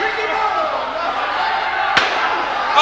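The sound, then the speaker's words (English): A chair shot in a wrestling match lands as one sharp, loud slam partway through, cutting over continuous crowd noise. “Watch this chair shot, dude.”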